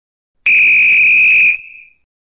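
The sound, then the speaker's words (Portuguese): A referee's whistle sound effect gives one loud, steady, high-pitched blast lasting about a second. It starts sharply and then fades out quickly. “Bem, apita aí, Juizão.”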